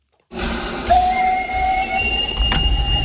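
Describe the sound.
Whistle of a steam locomotive at a steam locomotive festival in Benešov: a loud steady shrill tone cuts in over hissing steam and holds to the end, with one brief sharp knock near the close.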